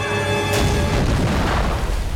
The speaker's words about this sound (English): Another soldier catches one in the leg and eye. He falls into the paddy field, onto a grenade.